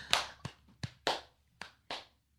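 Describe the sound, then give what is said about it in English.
A slow clap: six single, separate hand claps with uneven gaps between them, fairly soft, in a quiet setting with no talk. “Slow clap. Yep. Slow clap.”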